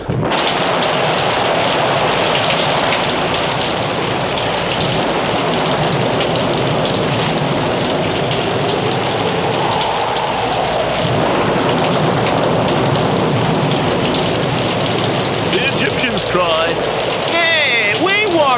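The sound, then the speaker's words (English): A storm of rain mixed with hail pours down in a dense, loud and continuous roar with a deep rumbling low end, holding steady for the whole stretch. “The seventh plague was hail.”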